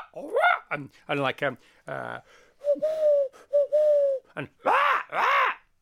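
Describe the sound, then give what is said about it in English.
Exotic tropical bird calls played as a sound effect across the golf course at the Masters tournament in Augusta: many short chirping and arching calls mixed with long, steady whistled notes, clear and without talk. “if you watch Augusta the Masters, you hear this beautiful sort of exotic tropical bird sound,”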